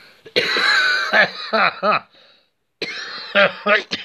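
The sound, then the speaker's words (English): Gasping, wheezy breaths from a man running out of breath, a run of raspy voiced bursts and cough-like heaves in quick succession, a brief pause, then several more loud rasping gasps. “Oh, God, I'm running out of breath, yeah? I'm running out of breath trying to shoot him.”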